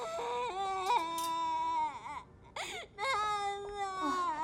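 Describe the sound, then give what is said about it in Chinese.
A frightened young child cries in high, quivering wails and sobs. The crying comes in several bursts broken by short gasping pauses and stays fairly quiet overall. “别哭了，别哭了”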